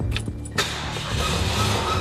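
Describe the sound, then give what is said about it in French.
A faulty car engine that won't rev, running on two or three cylinders as if out of fuel: a brief burst of cranking, then it catches and carries on as a low, uneven, rough drone. “Tu vois, elle démarre, et j'arrive pas à avoir de régime. Elle tourne sur deux, trois pattes, quoi.”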